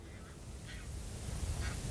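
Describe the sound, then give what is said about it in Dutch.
Alarm calls of geese reacting to people standing too close in a field as they begin building their nests. A few short, nasal, honking calls sound faintly over a low, steady rumble. “Gouden ganzen. Die zijn een beetje aan het alarmeren omdat wij voor hun gevoel te dichtbij staan.”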